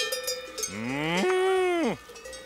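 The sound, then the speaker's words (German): A cow moos in a barn that holds forty cows kept on a summer mountain farm: one long, low, harmonic-rich moo that swells in pitch, holds steady, then drops off at the end, with faint livestock sounds before it. “40 Kühe hat Josef im Stall.”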